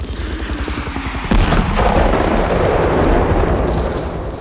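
A Hollywood-style battle sound effect opens with rapid bursts of gunfire. A heavy artillery boom then erupts into a loud, sustained rumble of explosions and continued firing that lasts for several seconds.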